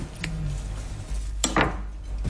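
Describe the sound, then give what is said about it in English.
A knife cuts off the crust during food preparation, giving a few short scraping and crunching strokes of moderate loudness, with the last strokes coming close together over a low, steady background hum. “Then I cut off the crust.”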